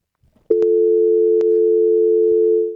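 Telephone call tone heard while waiting for the other party to pick up: one steady, unbroken mid-pitched hum begins after a brief quiet moment and holds at even loudness to the end, with two faint clicks early on.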